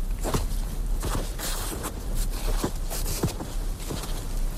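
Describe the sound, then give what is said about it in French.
Footsteps crunching through heavy, wet snow in a snowy forest: a steady series of soft, muffled steps over a constant low rushing background. “Notre carte postale sonore va donc vous amener dans la forêt enneigée. Neige lourde et humide.”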